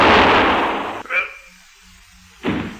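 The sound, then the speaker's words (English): Gunshots fired in a tense hold-up confrontation: loud, broad bursts of noise at the start, then a brief crack, a quiet gap, and another sharp blast. “I'm warning you. I'll shoot if you don't.”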